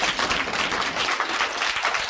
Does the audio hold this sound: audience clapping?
yes